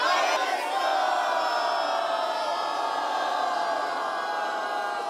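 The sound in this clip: A crowd cheers in a village in the Wetterau region of Hesse. The cheering is a loud, dense roar of many voices that holds steady for the whole stretch.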